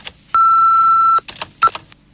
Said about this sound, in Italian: Segreteria telefonica.